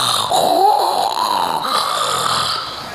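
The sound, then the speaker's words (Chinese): A performer's voice imitating snoring as an emperor dozes at his desk during court, with drawn-out, rasping, gurgling snores that waver in pitch. “大伙儿想，这谁呀？哟，打上呼噜了”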